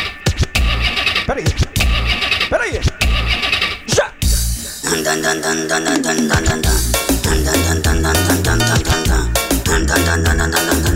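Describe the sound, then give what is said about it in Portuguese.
A Volkswagen Passat engine roars in repeated loud revs that rise and fall over a pounding dance beat, and then the music carries on. “É o ronco do motor.”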